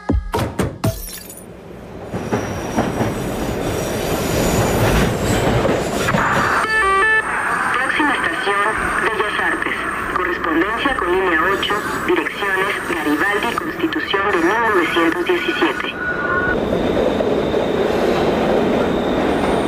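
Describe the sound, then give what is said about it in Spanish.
Mexico City Metro train running with a steady, loud rumble and metallic rattling, joined by whining, wavering motor tones through the middle stretch before settling back to a broad roar; people talk underneath. “Seguro ya sabes de qué hablamos. El metro de la Ciudad de México no solo es un transporte, es una experiencia sonora.”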